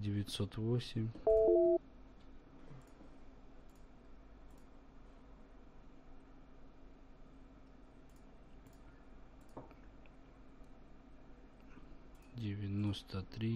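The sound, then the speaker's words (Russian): Dialing tones from a call placed through Skype: two short electronic beeps sound early, followed by a long stretch of faint, steady hum. Voices talk at the start and again at the end. “Ну попробуем набрать через скайп, ребят.”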